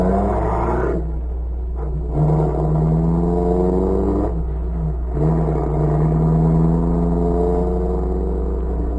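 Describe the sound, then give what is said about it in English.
Car engine as a vehicle drives away from a house across from a grocery store: a continuous mid-pitched engine hum whose tone shifts a few times, steady in loudness throughout, with no voices. “Fortier and Grisanti, came out of the house across from the grocery store and drove away.”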